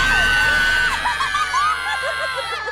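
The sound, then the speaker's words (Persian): A person screaming in high, girlish-sounding cries that waver and slide up and down in pitch, loud and continuous from start to end over a low steady hum. “و تو چرا اینطوری جیغ میکشی؟ صدت مثل دختراست.”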